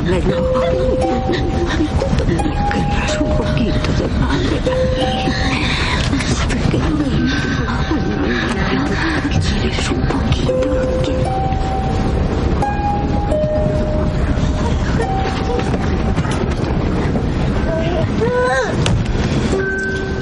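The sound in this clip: A train rolls slowly along the rails in a World War II Holocaust drama, a steady, loud rumble that runs throughout, with tonal notes stepping up and down over it.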